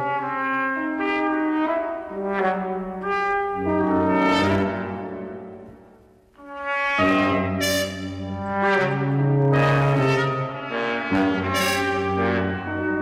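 Brass quintet music with trumpets and other metal horns, playing layered, sustained harmonic notes in a steady rhythm. The ensemble drops away briefly around the middle, then resumes at full strength.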